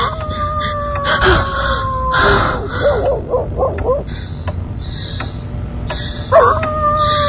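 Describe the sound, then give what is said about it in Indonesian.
A dog howls in long, wavering tones that rise and fall in pitch, with a few sustained cries and a louder burst near the end. “terbangun kaget. Suara Ciko melolong mengagetkanku.”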